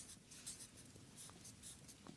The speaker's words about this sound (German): Oh, ich muss deutlicher schreiben, ist mir gesagt worden.